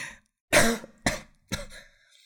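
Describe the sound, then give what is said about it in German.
Someone coughs three times after choking on something swallowed. The first cough is the longest and loudest, and the next two are shorter, each separated by a brief silence. “Entschuldigung, Gott, ich habe mich verschluckt.”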